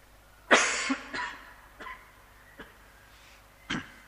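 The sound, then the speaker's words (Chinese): Coughing from a dry throat after a lot of talking: one sharp cough followed by several smaller, quieter coughs and throat sounds spread over a few seconds, faint overall and with no speech. “不好意思，天气一干呢，讲的话讲得多就会想咳。”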